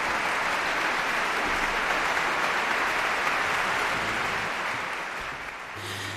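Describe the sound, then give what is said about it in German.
Concert audience applause in Lugano after an orchestra's Ravel performance: dense, steady clapping held at an even level for the whole stretch, easing off slightly toward the end. “Applaus. Der junge Dirigent lässt einzelne Musikerinnen und Musiker des Orchesters auch aufstehen, besonders die Bläserinnen und Bläser, die in Ravels Partitur ja einiges zu tun gehabt haben.”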